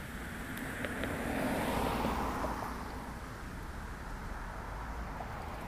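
Traffic at a bus stop: a steady wash of road and wind noise, with a vehicle passing that swells louder and then fades.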